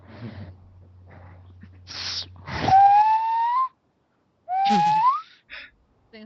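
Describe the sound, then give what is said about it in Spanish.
Nose whistle being played: after breathy puffs of air, two clear whistled notes each glide upward in pitch, separated by a pause, with faint breathy noise around them. “Es un silbato de nariz.”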